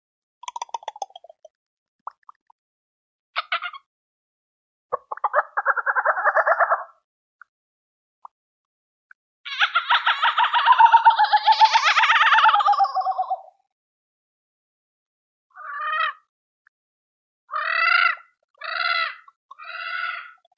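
Frog croaks and calls in a jungle setting come in separate bursts with silence between: short rasping pulses, a longer warbling call in the middle, then a quick run of short croaks near the end.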